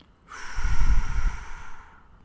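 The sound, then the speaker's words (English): Forceful exhalation squeezing air out of the lungs while bending slightly forward during a deep abdominal breathing exercise: one long, breathy rush of air that swells, then tapers off, with no talk. “squeeze all your air out by bending over slightly as though you're doing a sit-up.”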